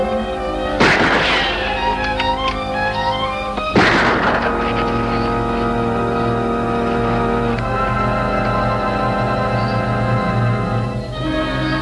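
Gunshots from a gun: two loud, sharp blasts about three seconds apart, each ringing out over sustained tonal music that continues throughout.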